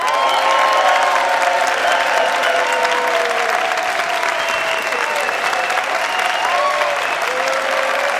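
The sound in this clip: A large live audience applauding at a radio show taping: dense, sustained clapping at a steady, loud level throughout, with some cheers mixed in.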